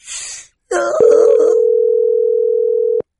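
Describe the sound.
A telephone dial tone follows a hung-up call: a single flat, steady mid-pitched hum that holds for about two seconds and then cuts off. A short burst of noise and a brief voice come just before it.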